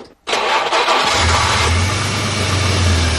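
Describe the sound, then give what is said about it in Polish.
Engine of a Żuk delivery van, built in Lublin, starting up: a loud cranking burst that catches and settles into a steady, low, droning idle. “59 lat temu w Lublinie rozpoczęto seryjną produkcję samochodu dostawczego Żuk.”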